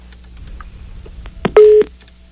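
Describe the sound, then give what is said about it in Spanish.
A telephone tone after a call is cut off: a sharp click, then one short, loud, steady beep over faint line hiss. “Se cortó la llamada, ¿verdad?”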